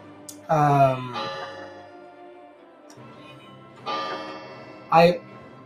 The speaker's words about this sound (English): I apologize for my clock going off. It's 9 p.m.